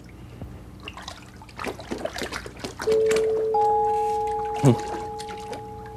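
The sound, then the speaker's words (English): Water trickles and splashes as it is poured for soaking feet on the porch in Mister Rogers' Neighborhood, with a brief louder splash near the end and sustained musical notes ringing over the pouring. “he showed up at Mr. Rogers' porch, just as Fred was starting to soak his feet.”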